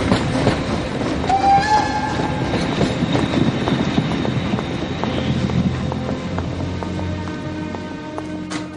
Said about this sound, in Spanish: El tren se aleja despacio.